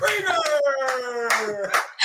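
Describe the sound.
Scattered applause breaks out as a guest is introduced, with brief bursts of clapping mixed under a voice speaking loudly over them.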